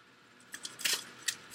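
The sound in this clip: Tarot cards being drawn from a deck give a few brief, crisp papery snaps and flicks, quiet and spaced unevenly, with no talking.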